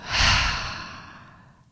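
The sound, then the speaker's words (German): A single deep breath, drawn in and let out slowly: a loud, airy inhale swells, then a long exhale fades gradually to quiet. “Zum Abschluss atme noch einmal ganz tief ein und aus.”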